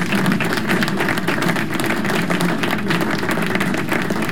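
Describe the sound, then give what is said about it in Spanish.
Applause and clapping from a crowd, a dense, steady patter of many hands that stays even and loud for the whole stretch, with no voices. “Así que aplauso.”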